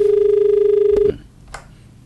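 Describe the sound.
Telephone line tone as a caller's call comes in, a steady, slightly pulsing mid-pitched hum that cuts off abruptly after about a second, leaving a couple of faint clicks and quiet.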